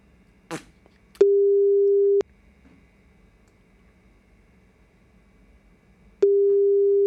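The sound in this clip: Ringback tone of a phone call back that nobody answers: two steady, one-second mid-pitched tones about five seconds apart, with a brief click just before the first.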